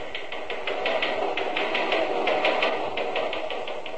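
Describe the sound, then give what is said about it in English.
Police teletypewriter printing in a steady, rapid mechanical clatter, its keys striking in an even, unbroken rhythm across the whole clip at moderate loudness, with no talking. “I was watching the police teletypewriter giving a practically blow-by-blow account of how a bank robber was being captured in a small upstate railroad depot.”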